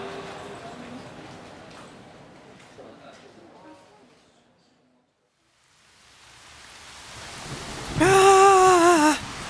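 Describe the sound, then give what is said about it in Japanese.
Heavy rain and strong wind in a storm make a broad hiss that fades almost to silence midway, then swells again. A voice calls out loudly near the end. “雨も風も強くなってきたし、そういや今夜嵐になるって言ってたな。”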